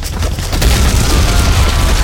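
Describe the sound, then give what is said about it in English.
A grenade explodes among a group of enemies in a firefight: a loud, dense blast that swells after about half a second into a sustained roar with a deep low rumble, heard alone. “Lewis grabbed a grenade from his belt and threw it into their midst”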